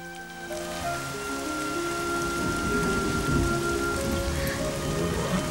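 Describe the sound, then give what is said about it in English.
Torrential rain pours down in a dense, unbroken hiss with low rumbling beneath it, while sustained tonal notes shift gradually over the downpour. “Katie rides Flicker in torrential rain.”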